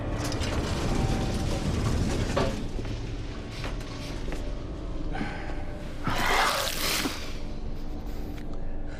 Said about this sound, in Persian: من اول باید بو بکشم.